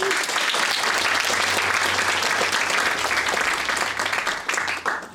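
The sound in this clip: An audience applauds to welcome a speaker at a church gathering. Dense, steady clapping continues for about five seconds and thins out slightly at the end.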